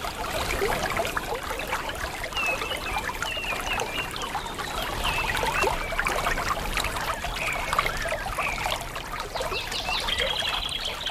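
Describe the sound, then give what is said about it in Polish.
Water from a spring trickling, captured as an outdoor field recording: a steady, fairly loud bubbling and splashing flow that runs without a break. “Ruszamy do źródeł i jedno z nich nam już pięknie tutaj wybrzmiewa. Nagrane przeze mnie terenowo kilka lat temu”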